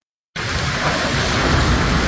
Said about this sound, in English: That was the sound of gushing rain in fierce woods in Felicia Martinez's Tucson, Arizona neighborhood last week.